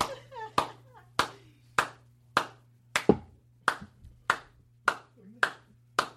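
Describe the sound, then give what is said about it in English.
One person clapping alone after a joke, making slow, evenly spaced single claps, roughly ten in all, each sharp and separate, with a brief voice at the start and a low hum beneath. “You should be able to applaud all by yourself for a joke.”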